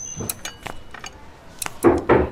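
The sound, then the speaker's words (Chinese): Metallic clicks and rattles of a door lock being unlocked: a few light, sharp clinks followed by two louder, rattling bursts near the end. “你妈已经把锁打开了，出来吃饭吧。”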